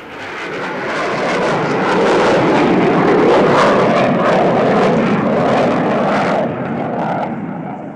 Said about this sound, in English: Near the airport, fighter jets disturb an otherwise quiet roadway.